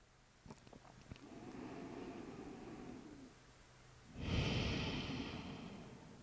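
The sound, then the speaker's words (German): A slow, deep breath in and out. A soft, drawn-out inhale lasts about three seconds, then after a short pause comes a louder, breathier exhale that gradually fades, all at low volume. “Tief ein- und ausatmen.”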